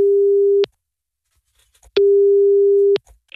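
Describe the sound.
A telephone ringing tone plays while a call is placed: two long, steady, even tones, each about a second or less, separated by a silent gap of over a second.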